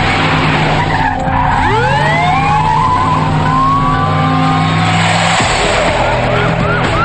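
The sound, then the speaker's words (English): A police car speeds off during a car chase: its engine roars with a sharply rising pitch while tyres skid and screech, loud throughout, with further squealing sweeps layered over the steady engine drone. “Joel gets into an empty police car and speeds toward David, who is driving away through a different exit.”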